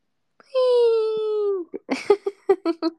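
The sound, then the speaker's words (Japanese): A banana cat meme crying sound: one long, drawn-out wailing cry, then a quick string of short, choppy sobbing bursts. “バナナの猫泣いてるの好き。”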